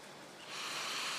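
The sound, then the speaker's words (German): An audience takes a deep breath together, a broad, airy hiss that swells partway through and holds steady to the end. “Nehmen Sie doch gerade mal einen tiefen Atemzug.”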